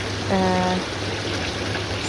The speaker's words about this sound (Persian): یکی از چیزایی که توی باغ گل نظر همه رو خیلی جلب میکنه آبنماهای خیلی خوشگل و متنوع است. مثلا من جلوی آبنما وایسادم